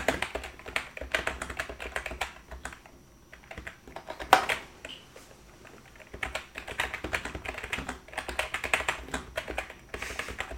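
Fingers type on a computer keyboard in quick bursts of many keystrokes, a brief lull near the middle before the rapid tapping picks up again.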